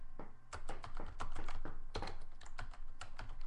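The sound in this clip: Fairly faint, rapid keyboard typing to erase text: many irregular clicking keystrokes in quick bursts, with no voices.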